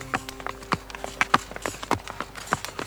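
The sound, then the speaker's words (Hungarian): Hooves of a horse pulling a small cart down Zöld Street clip-clop in a quick, uneven rhythm, with many sharp, fairly quiet strikes that carry on throughout. “hajtott végig a Zöld utcán, fázósan húzta össze magát a lova mögött.”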